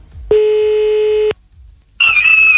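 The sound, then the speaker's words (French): A telephone line tone sounds while a call is placed: a single steady mid-pitched beep lasting about a second, a short silent pause, then a higher, slightly wavering tone that continues to the end. “Allez, 1h25, c'est parti, on appelle.”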